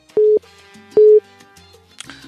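Telephone line tone as an incoming call is connected: two short, loud, steady beeps evenly spaced, followed by a brief click-like crackle.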